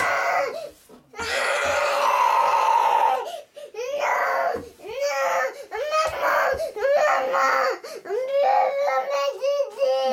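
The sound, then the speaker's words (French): A small boy screams and cries in a sudden rage, loud wailing bursts alternating with breaths and whimpers, rising and breaking in pitch throughout. “Il frappe de sa main minuscule, il tape des pieds en hurlant, il devient rouge écarlate.”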